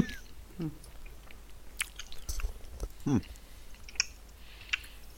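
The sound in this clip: Someone eats cornflakes at breakfast, giving faint, crunchy chewing. Scattered soft crunches and small clicks come at an irregular pace, with one louder crunch near the middle, all quiet and without clear talk.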